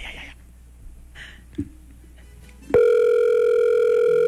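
An unanswered telephone call gives a steady electronic ringing tone. It cuts in abruptly after a near-quiet stretch and holds loud and unbroken to the end.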